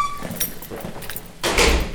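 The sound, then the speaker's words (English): A heavy door at RSW swings open and clangs shut, with scraping movement followed by a loud, broad metallic bang that rings on. “The last of several doors at RSW opens and clangs shut.”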